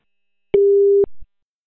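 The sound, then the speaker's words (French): A single steady telephone tone sounds on the line while calling a doctor. It is mid-pitched and lasts about half a second, and a short low thump follows. “je vais vous mettre en conférence avec mon toxicologue de garde. Je vais appeler docteur Blado là, à l'instant.”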